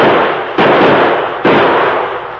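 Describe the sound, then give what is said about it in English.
Loud gunshots from a pair of handguns fired at a tin can tossed into the air, a few sharp blasts in quick succession, each with a long, noisy decay. “I'll use my own two guns, you use yours. Matt! Yeah? Throw one of them tin cans up in the air. I'll keep it there. Watch this,”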